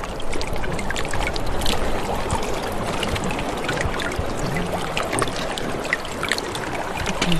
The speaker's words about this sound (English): it was these icicles melting into the ocean water. And so again, fresh water melting into seawater. And the sound was so musical, like analog synthesizers, just so beautiful.